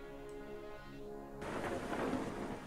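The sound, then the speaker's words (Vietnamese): Thunderstorm with heavy rain. A faint, steady tonal hum gives way abruptly to a broad, rushing hiss of downpour, which swells and stays loud to the end. “Nhìn ra ngoài trời mưa, trong cái làn mưa trắng xóa ấy. Thỉnh thoảng những tia sét lại lóe lên sáng rực cả bầu trời.”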